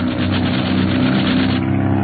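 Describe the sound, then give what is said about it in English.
Aircraft engines drone in a sound effect of two planes locked in an aerial dogfight, a loud, steady propeller hum with layered tones that holds throughout without voices. “The two planes are engaging in an aerial dogfight”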